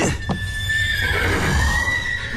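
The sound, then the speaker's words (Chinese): A stressed horse with broken horseshoes, kept in a vehicle compartment, neighs: a loud, sustained, wavering high-pitched whinny running through the whole clip over a steady low rumble. “来，我来看看这个咬人的马。”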